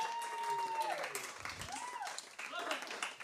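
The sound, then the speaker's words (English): An audience at a live storytelling show claps for the sound booth operator. The applause is moderate and uneven, mixed with crowd voices and a few tonal calls. “Let's have a hand for Luke”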